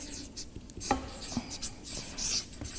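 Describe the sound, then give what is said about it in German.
Faint pen-on-paper writing, with a few soft, irregular scratching strokes and light rubs at low volume and no talking. “schreibe noch kurz zu Ende.”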